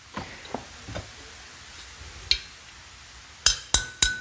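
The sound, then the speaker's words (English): A ceramic pot is tapped seven times: four softer knocks spaced apart, then three sharper taps in quick succession that ring with a clear, high pitch. “So listen to this pot. There's a crack in this pot, right? Here, listen to this one.”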